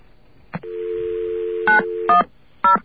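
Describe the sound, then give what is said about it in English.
An outside telephone line is picked up with a click, bringing a steady dial tone, then three short touch-tone dialing beeps are keyed, the dial tone stopping after the second beep. “Well, first I have to get a line here. And we'll try dialing out.”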